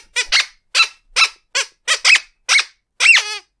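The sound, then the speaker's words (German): Squeaky fanfare effect: a run of short, bright, rubbery squeaks in a quick, even rhythm, closing on a longer, wavering squeak. Loud and alone, with no talk. “ein Quietschetusch”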